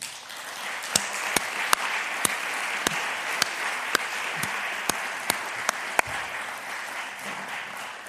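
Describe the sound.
Audience applause welcomes a speaker: steady, dense clapping throughout, with sharper individual claps standing out now and then.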